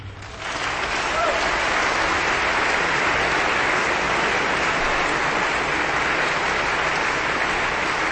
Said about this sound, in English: So please welcome our concertmaster, Bing Wang, and conductor, Dima Slobodaniuk.